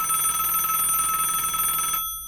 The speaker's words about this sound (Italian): La regia ci mandi la prima chiamata.